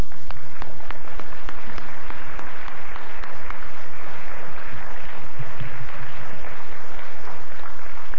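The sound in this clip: An audience applauds to welcome a speaker, with dense, steady clapping that stays loud and even from start to finish.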